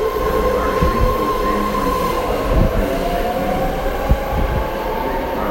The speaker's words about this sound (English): You can hear that the train going by is quite loud.